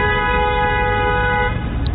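A car horn blares in one long, steady honk in Khabarovsk, holding an even tone for about a second and a half over a low traffic rumble before cutting off.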